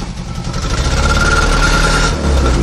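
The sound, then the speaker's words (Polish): A restored vintage car engine from a private motoring museum runs loud and steady, its rough idle pulsing with a low, throbbing vibration throughout. “po odbudowie ten silnik rusza”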